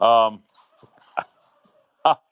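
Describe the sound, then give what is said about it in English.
A dog playing with her squeaky toy gives high, harmonic squeaks or whines: one long burst at the start, then two short bursts near the end, with faint sounds in between. “Yeah, my dog has decided she really wants to play with her squeaky toy, so I've been leaving myself on mute here.”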